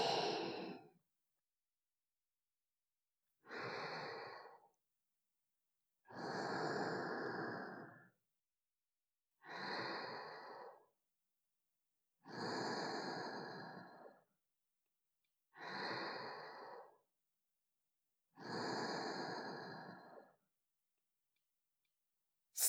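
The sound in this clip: Slow breathing in and out during a guided breathing exercise: seven quiet, airy breaths, each lasting a second or two, separated by silent pauses.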